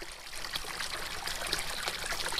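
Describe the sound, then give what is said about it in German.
Water trickling and splashing in a water basin at the edge of a Portuguese village, a steady, fairly faint, even flow of bright watery noise with no talk. “Ein Wasserbecken am Rande der Ortschaft Noderinho.”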